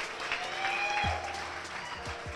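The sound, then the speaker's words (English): Applause from an audience gathered at a brewery in Bristol, Connecticut: a faint, steady wash of clapping that holds evenly throughout without a clear rise or fall. “A big round of applause for Bill and everyone here at Firefly Hollow.”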